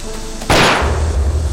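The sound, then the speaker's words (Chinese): A single loud gunshot rings out during a tense confrontation. It is a sharp, abrupt crack that decays over a fraction of a second, leaving a low, steady rumble underneath. “站住！站住！我开枪了！”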